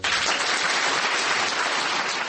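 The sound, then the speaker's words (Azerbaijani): Audience applause greets a journalist: dense, continuous clapping from many hands, steady and loud throughout. “Bu alqışlarla jurnalist həmkarları Qətərdə yerləşən Əl Cəzirə telekanalının keçmiş operatoru Sami Əlhacı salamlayırlar.”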